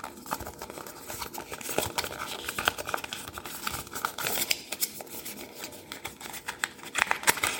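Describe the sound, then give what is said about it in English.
Cardboard packaging is torn and pulled open to free a charging cable, making a steady run of many dry, irregular scratchy crackles and rustles at a fairly quiet level. No one speaks. “Okay, so got that cardboard piece open. Got the charging cable out.”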